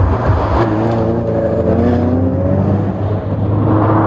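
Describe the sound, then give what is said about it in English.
A car drives on the M25 motorway near Junction 5 with a loud, steady engine drone. Its tonal hum edges slightly higher in pitch partway through over constant road noise. “And where else to start, John, but Junction 5 of the M25, as driven by two-time Olympic decathlon champion Daley Thompson on his way to see the site of the Battle of Hastings. Let's hear it.”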